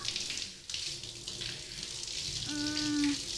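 Shower water running steadily while it rinses someone behind the ears, making a soft, continuous hiss and splash that stays faint throughout.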